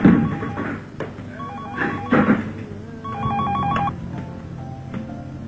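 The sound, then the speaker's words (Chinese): Telephone ringing as a call is placed, repeated warbling electronic bursts with short pauses between them, a few rings fairly loud over a low steady background. “小雨决定用计谋来揭穿阿琴，便一边和他上网聊天，一边打了电话过去。”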